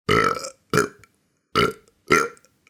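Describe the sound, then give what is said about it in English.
A voice imitates a dragon burping with four short, loud, throaty belches, each separated by a brief silence. “but the next day he simply burped”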